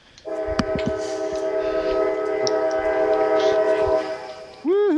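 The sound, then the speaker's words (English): A giant train passes by a house, its horn sounding one long, loud, steady blast of layered tones for about four seconds over a low rolling rumble. “Are you hearing like the giant train that goes by my house?”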